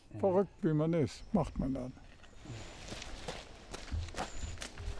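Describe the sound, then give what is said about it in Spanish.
Footsteps of an 81-year-old man running up stone steps two at a time, following a voiced passage at the start: a loose run of soft, uneven thumps and scuffs at moderate volume. “Sube los escalones de dos en dos, usando también sus brazos.”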